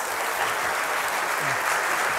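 Steady applause from a studio audience welcoming a guest, a journalist and writer, onto a Lithuanian evening show: a dense, even patter of many hands clapping, loud and unbroken from start to finish.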